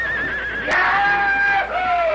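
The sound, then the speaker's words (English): A stallion neighs loudly while bucking under a rider: one long, shrill, quavering whinny with a brief noisy burst early on, its pitch stepping down near the end. “Then the two cowhands leaped aside, and the stallion went into action.”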